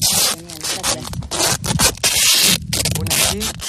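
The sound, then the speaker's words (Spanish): Duct tape being pulled and wrapped between a shoe and a trouser leg as protection against stings, with repeated loud rasping tears and rubbing bursts and some voices in between. “Me están poniendo entre el zapato y el pantalón un poco de cinta americana.”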